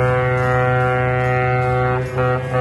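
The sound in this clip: A ship's horn sounds as ships leave port: one loud, deep, sustained blast with rich harmonics that holds steady throughout and dips briefly near the end.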